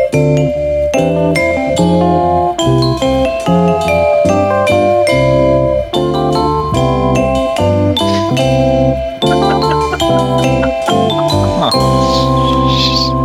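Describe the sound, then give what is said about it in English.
Phone ringtone playing a repeating tinkling melody of rapid, chiming electronic notes, loud and continuous throughout with no talk over it. “Now that's an annoying ringtone.”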